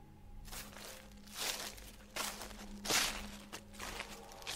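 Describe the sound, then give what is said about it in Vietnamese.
Footsteps at night with an extra beat, as if two people walk together: a series of soft, crunchy, crinkling steps at an uneven pace, fairly faint, with no voices. “A Nùng cảm thấy lạ, tiếng bước chân của mình tựa như là có thêm một nhịp.”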